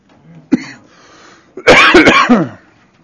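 Throat clearing and coughing from a person with something caught in the throat: a short rough burst, a brief pause, then a loud run of several harsh coughs.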